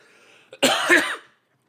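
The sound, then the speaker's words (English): A person coughs while choking: a short catch, then one harsh, loud, sustained cough burst that cuts off sharply into silence. “I apologize for the coughs, guys. I didn't hit the cough button either. I was dying there. I started choking.”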